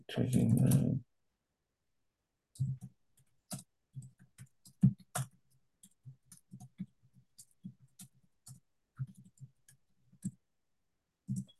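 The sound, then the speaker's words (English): Typing on a computer keyboard during an online meeting: faint, scattered key clicks in irregular short runs, with quiet pauses between them. “Let me just type here.”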